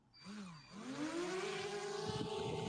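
A drone's motors whir up over a ranch as it lifts into the air. The buzzing tone climbs in pitch, then settles into a loud, steady, high whine.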